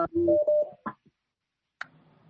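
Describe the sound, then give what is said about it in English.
Electronic tones sound as a phone call comes in on a talk show's line: a short pair of steady beeps and brief clicks, then a low, faint hum. “Oh, I think there's a phone coming in.”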